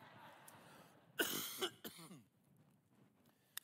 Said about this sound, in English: I've had a cough this week, and it's coming on right now.